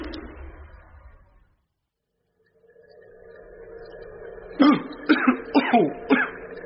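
Harsh coughing as surgical spirit fumes catch the back of the throat: a quick run of several rough, throaty coughs bunched together near the end, after quieter rustling.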